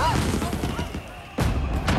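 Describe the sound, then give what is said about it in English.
Fireworks bursting at a carnival: after a quieter, mixed stretch, two loud booming bangs crack out in the second half, the second following close behind the first. “As a dazzling fireworks display lights up the sky, the carnival goers applaud their approval.”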